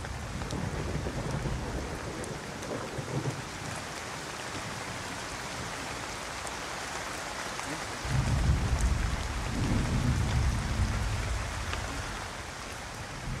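A storm sound effect of steady hissing rain with low thunder rumbling beneath, building to a heavier deep rolling rumble in the second half that swells and then eases off, with no talk.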